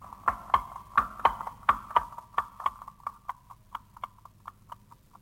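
Horse hooves clip-clop in a steady, even rhythm, many sharp ringing strikes in a row that grow slightly fainter over time, with no voices.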